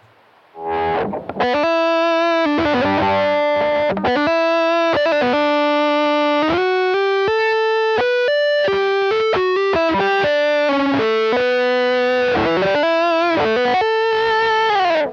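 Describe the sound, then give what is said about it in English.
Electric guitar played through a compressor into a distortion pedal, with a dry distorted tone and no other effects, carrying a continuous lead line of sustained, singing notes that step between pitches with smooth, even loudness throughout. “I'm just using a compressor into a distortion pedal, and that's pretty much it. So let me, you can just hear the dry, distorted signal here.”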